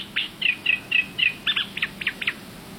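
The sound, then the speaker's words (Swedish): A reed warbler sings in lake reeds: a quick run of about ten short, high chirping notes. Slurred whistled phrases give way to harsher, doubled chattering notes, heard alone without talk. “För i Tåkerns vassar så har vi ju så många rörsångare. Men här sitter det en. Och det är lite kul att höra.”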